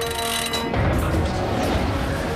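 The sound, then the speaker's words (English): Submarine propeller screws starting up, a loud, dense churning roar of machinery and rushing water that swells early on and then holds steady throughout. “The screws stir into life, and the bow of the Nautilus cuts through the water.”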